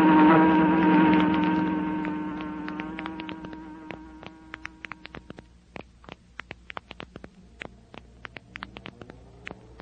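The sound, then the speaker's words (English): An electric fan of an unfamiliar, cheap make runs with a buzzing motor drone that fades away over about four seconds. Many light, irregular clicks and ticks follow and continue to the end. “Some fan, isn't it, honey? Feel that cool air.”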